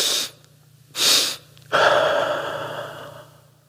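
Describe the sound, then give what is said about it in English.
A physiological sigh: two quick breathy inhales, the first one larger, then a long, steady exhale that slowly fades, all without speech. “2 inhales in, normally the first inhale is the biggest.”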